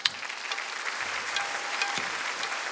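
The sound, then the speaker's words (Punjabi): An audience applauds three singers after their heartfelt singing at a stage event, a steady, even wash of many clapping hands at moderate volume with no voices over it. “ਇੱਕ ਵਾਰ ਆਪਾਂ ਰਲ ਕੇ ਜ਼ੋਰਦਾਰ ਤਾੜੀ”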